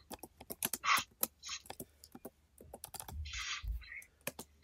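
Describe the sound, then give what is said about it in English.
Computer keyboard typing: many quick, faint key clicks in irregular bursts, with a few brief scratchy swipes among the keystrokes and no voices. “Let me type it in.”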